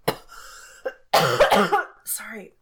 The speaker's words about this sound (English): The sip of water gets caught in your throat a little bit.